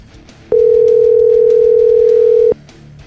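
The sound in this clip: An outgoing telephone call rings with a single steady, loud electronic tone that holds unbroken for about two seconds and then cuts off cleanly.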